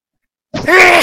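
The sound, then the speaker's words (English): A single loud, sudden sneeze bursts out of silence, harsh and voiced, with a brief sharp onset and a stronger, sustained second part. “that was that COVID sneeze, bro.”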